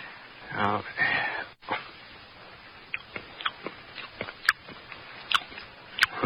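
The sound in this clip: A spoon clicks and scrapes in a jar while someone tastes from it, with a few sharp, scattered clicks and soft chewing or smacking sounds; a voice is briefly heard near the start.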